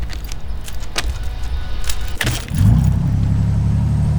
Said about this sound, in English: He fits two keys into the two locks and turns the engine on.